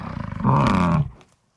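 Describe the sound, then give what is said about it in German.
A bison bellows in one long, deep, rumbling call. It opens with a pulsing growl, swells into a loud sustained roar, then fades out, heard alone. “Nee, das ist ein Bison zum Beispiel.”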